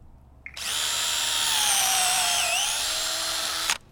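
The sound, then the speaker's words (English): Power drill boring a slightly angled tap hole into a tree trunk, its bit marked with pink tape for depth. A steady, loud, high whine runs for about three seconds, dips briefly in pitch, then recovers before cutting off abruptly. “He has a drill with pink tape on the bit to show him how deep to go. Typically what we're going to do, we're going to angle it just a little bit.”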